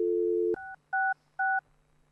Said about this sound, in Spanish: ¿Podemos llamar al 113?